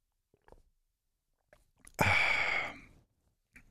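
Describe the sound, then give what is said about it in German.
A sip of tea drawn from a cup: one short, breathy slurp lasting about a second, framed by a few faint lip and cup clicks, with no talking. “nehme ich noch einen Schluck Tee”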